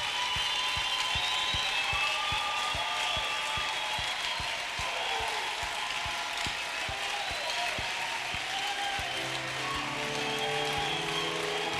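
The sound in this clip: A church audience stands and cheers loudly in praise at a youth convention, with a steady crowd roar and a regular clapping beat running all the way through at an even, moderate level.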